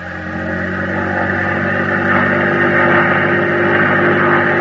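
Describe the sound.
A boat engine revs at full throttle in a steady, loud harmonic drone. It swells in the first moments and then holds a constant, humming roar, with no voices.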